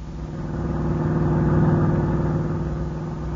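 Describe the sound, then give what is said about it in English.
A car engine hum as a car drives into a ranch, a steady mid-pitched drone that swells louder midway and eases slightly toward the end, with no talk. “As we pick them up, they're just driving into the ranch.”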